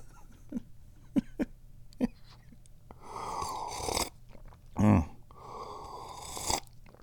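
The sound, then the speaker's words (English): A person drinking tea makes faint clicks and mouth sounds, then slurping sips and a low gulp, all fairly quiet. “Yummy, yummy. Oh, yeah. Drinking tea. I'm having fun. I'm having a good time drinking tea.”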